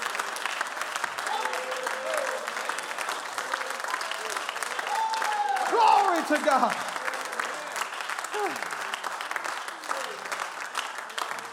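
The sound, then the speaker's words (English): A church audience in a tabernacle roaring and applauding in rejoicing: dense, sustained clapping with cheering and shouting voices over it, loud and continuous throughout. “That's the roar you hear. That's the roar you hear.”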